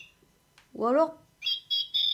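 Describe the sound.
A pendulum clock's hourly chime plays recorded bird song: three bright, high chirping phrases in quick succession, following an earlier lower warbling call.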